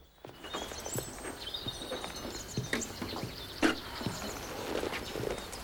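Hoofbeats of a horse cantering through woodland: a run of irregular clops and dull thuds at moderate loudness, with faint rustling between the strikes.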